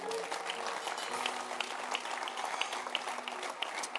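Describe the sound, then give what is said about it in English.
Faint clapping from an audience at a church gathering, a quiet, scattered patter of hands with a few sharper individual claps standing out over the soft spread of applause. “Can you clap your hands?”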